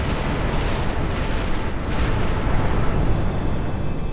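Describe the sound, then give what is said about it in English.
The apocalyptic blast of an exploding star, rendered as a loud, dense, continuous roaring rumble with heavy low-end weight, holding steady throughout without distinct separate bangs. “Pluto to the apocalyptic blast of an exploding star”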